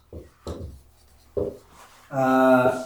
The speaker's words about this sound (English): The 3 functions of the law. Let me just write these out here, actually.